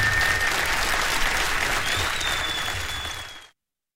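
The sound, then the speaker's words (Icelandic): Audience applause at a concert in a Reykjavík concert hall: dense, steady clapping that holds evenly for about three and a half seconds, then stops abruptly. “klappið fyrir honum bara.”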